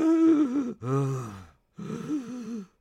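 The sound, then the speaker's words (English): A person's voice imitates the wheezing breath of asthma, making three strained, raspy, drawn-out breaths with a voiced, groaning tone and short pauses between them. “for people who don't know what wheezing is, it sounds like this.”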